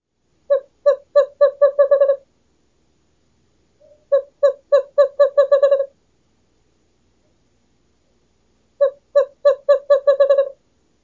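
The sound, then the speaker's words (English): A Western screech owl calls in three separate bouncing-ball series. Each series is a run of short, low whistled toots that speed up toward the end, with clear silent gaps between the series. “That was the Western screech owl. The most common song is an accelerating series of bouncing ball, low whistles that often drop in pitch.”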